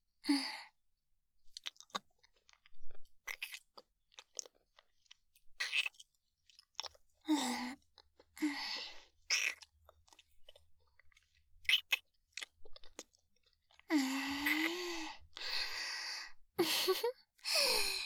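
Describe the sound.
Wet chewing of salty food, a dense run of irregular crunchy bites and smacking mouth sounds, broken by a few soft breathy vocal sighs near the end.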